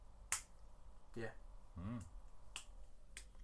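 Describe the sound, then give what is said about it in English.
Quiet finger snaps, each a sharp click as the finger strikes the palm. A few are spaced out across the moment, with brief murmured speech between them. “It's the sound of the finger hitting the palm.”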